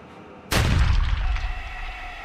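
A sniper's rifle shot: one loud, sharp crack that starts abruptly and then fades through a long, rumbling decay. A faint, steady ringing tone lingers afterward, as if the bullet had struck metal.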